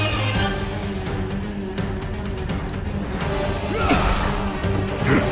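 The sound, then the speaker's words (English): Video game battle sounds of a scorpion firebombing and pummeling Cloud and Barret: loud, continuous crashing and smashing impacts, heavy thuds and whooshing swipes piling up without a break. “Time passes and Cloud and Barret continue to get firebombed and pummeled by this scorpion as they attempt to breach the barrier.”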